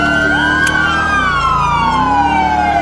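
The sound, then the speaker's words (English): Police car sirens wail in a police video game, loud and continuous throughout, with the pitch sweeping and sliding as several siren layers overlap above a low vehicle rumble. “all you need to turn off the sirens.”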